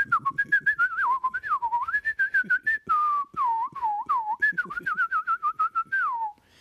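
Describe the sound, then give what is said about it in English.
A human voice imitates a bird singing, producing a long run of quick whistled, warbling notes that swoop up and down in pitch in many short, rhythmic bursts. “And then a bird started singing, and it went like,”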